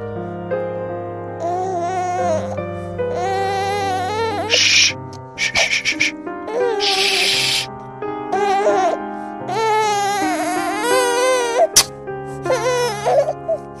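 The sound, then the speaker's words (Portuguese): An infant girl cries in a long series of wailing, harmonic sobs broken by short pauses and a few choppy, hiccuping breaths, her pitch wavering up and down between bursts. “Meu Deus, eu já não sei mais o que eu faço pra você parar de chorar, princesa.”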